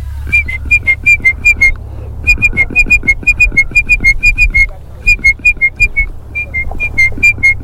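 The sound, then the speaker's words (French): A person whistles an imitation of a great tit's song: rapid, high, repeated two-note phrases in three bursts separated by short pauses. “je vous fais entendre une imitation du chant de la mésange charbonnière”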